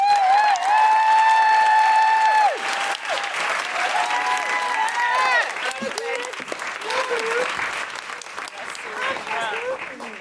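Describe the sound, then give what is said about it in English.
An audience claps and whoops for a guest comedian joining a show: long, high, sustained whoops ring out over dense applause at the start, and clapping with scattered cheers continues after them. “Please put your hands together and make general woohooing noises for Aisling Bea.”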